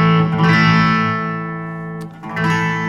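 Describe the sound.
Electric guitar played with gain: sustained, distorted chords ring with rich harmonics, one held tone fades away, then a fresh chord is struck about two seconds in.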